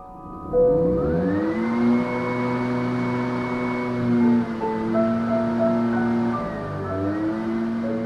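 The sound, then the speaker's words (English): An old gas-powered leaf blower running, a loud droning engine whine that climbs in pitch as it revs up, holds steady, dips briefly, then rises again. “he's brought one of his old gas blowers to demonstrate the noise”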